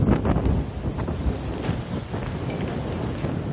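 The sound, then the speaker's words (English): Strong wind from the north as a weather front moves through, roaring and buffeting across the microphone in a continuous, loud rumble with uneven gusts throughout, and no voices. “This wind is coming almost directly out of the north.”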